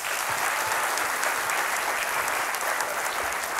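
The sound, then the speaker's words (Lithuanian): An audience applauds to welcome a guest, with a dense, steady patter of many hands clapping at an even loudness throughout and no voices over it. “Pasitikime plojimais.”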